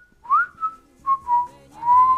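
A person whistles a pop song melody alone: five clear, mid-high notes separated by short pauses, some sliding slightly in pitch.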